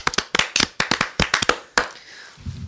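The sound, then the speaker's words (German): Sharp handclaps from an audience, a quick uneven run of loud slaps that stops after about two seconds, leaving faint low noise. “Dann würde ich mal sagen, wir applaudieren jetzt kurz.”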